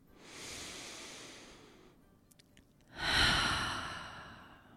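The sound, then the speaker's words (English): A deep breath in and out: a long, soft airy inhale, a short pause, then a louder, fuller exhale that fades gradually. “I want to just take a moment and take a really deep breath, and maybe you would like to join me and do the same.”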